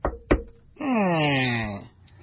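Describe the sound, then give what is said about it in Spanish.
Two sharp, quick knocks land on a door in a small village in Chiapas, followed by a drawn-out voiced tone. “En un pueblecito de Chiapas, tocan a la puerta.”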